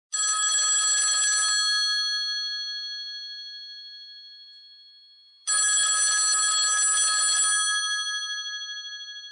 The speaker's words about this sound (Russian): в это время зазвонил телефон